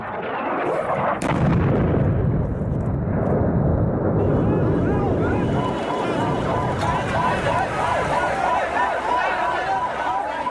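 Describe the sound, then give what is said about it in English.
Bombing and explosions in Sana'a, Yemen's capital, during war: a continuous, loud roar of heavy blasts and deep rumbling, with a sharp crack near the start and voices mixed into the din. “Sounds of Sana'a, Yemen's capital, early this month. The bombing, people collecting bodies, fighting fire.”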